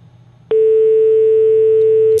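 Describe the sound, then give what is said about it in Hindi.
A telephone tone after a call drops from a technical fault: one loud, steady mid-pitched tone starts abruptly and holds unbroken for well over a second. “सन अफसोस है जी कि तकनीकी खराबी कारण call disconnect हो गई।”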